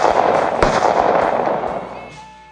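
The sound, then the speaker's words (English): Gunshots from a gun: a few sharp, loud cracks set within a dense, booming wash of sound that fades away toward the end. “I snapped, I went crazy. I took my gun and shot them both.”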